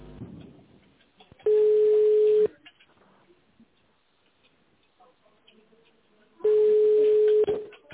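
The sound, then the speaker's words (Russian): A company telephone line plays a hold tone while the call is transferred to operators: two steady, evenly pitched beeps about a second long, separated by roughly four seconds of faint line noise. “Пожалуйста, наберите внутренний номер абонента или оставайтесь на линии. Ваш звонок будет переведен на операторов.”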